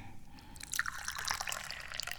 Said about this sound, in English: And as a good host, that means I should probably pour some tea.